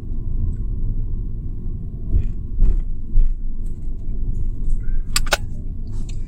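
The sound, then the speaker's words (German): Car driving along a road toward a bridge over the Inn river: a steady low engine and tyre rumble holds throughout, with a few faint ticks and taps above it. “Rechts neben mir ist der Innen und jetzt fahre ich dann gleich über die Innenbrücke.”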